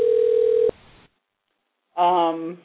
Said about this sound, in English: But you're going to hear the dialing.